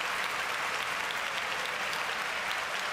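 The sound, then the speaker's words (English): Applause for a choir fills the whole stretch, a continuous, even roar of many hands clapping at moderate loudness with no pauses or voices standing out. “ladies and gentlemen, clap for the choir.”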